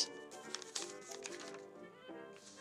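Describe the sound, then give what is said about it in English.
Papers rustling and shuffling as someone leafs through notes to find their place: many faint, scattered crinkles and flicks, with no talk. “That's the thing, that all this shuffling around is the sound of me trying to find my place from last time.”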